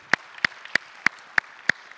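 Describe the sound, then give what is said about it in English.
A church audience claps in unison for a mission team returning from North Africa, with seven sharp claps at an even, brisk tempo and quiet gaps between them. “welcome back our North Africa team. We're grateful to have them back. We prayed for them this week. Yeah, we can clap for them too.”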